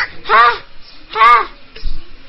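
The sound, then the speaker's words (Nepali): A crow caws twice, each call a harsh, loud, rasping burst, and a dull low thump follows shortly after. “ए, यो कौवाले नि हैरानै पारे।”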